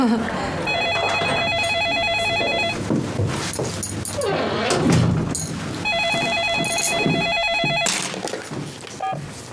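A home telephone rings in two long, bright electronic bursts. Other mixed sounds fill the stretch between the rings.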